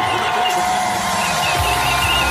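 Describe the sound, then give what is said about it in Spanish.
Hundreds of people cheering outdoors at a public screening, bringing chairs and flags as the interview of Ceuta's city president begins on TV: a dense, steady crowd roar that stays loud throughout, with voices mixed in. “Así vitoreaban el inicio de la entrevista en Antena 3.”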